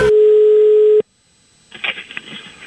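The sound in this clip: Telephone dial tone on an outgoing call: one loud, steady, single-pitch tone holding for about a second, then cut off abruptly, followed by silence and faint scattered noise.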